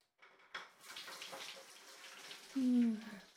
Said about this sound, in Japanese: まず、髪からね。お湯かけるよ。